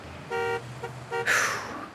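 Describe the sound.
Car horns sound in traffic of cars blocking an exit: two short, bright honks separated by a brief gap, followed by a louder rushing whoosh of vehicle noise that gradually eases.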